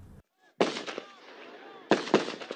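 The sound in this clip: Gunfire from a settlement security guard rings out on a road outside the Palestinian village of Sa'ir. Sharp, loud cracks come in two quick clusters about a second apart, with faint voices in the background.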